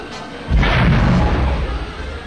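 A spaceship's blaster fire explodes near the ship during an attack: a single deep boom hits at about half a second, then a heavy low rumble sustains and slowly fades.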